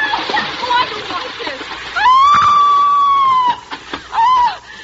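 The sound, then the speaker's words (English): A person screams while sliding down a rock on a rope. After some earlier noisy movement, a long, loud, high scream is held steadily, followed by a shorter cry near the end. “And now, scream convincingly as you slide down, darling.”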